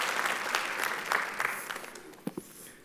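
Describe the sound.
Applause from a church audience welcoming a guest speaker, fairly quiet and dense at first, then thinning and fading, with a few last isolated claps near the end.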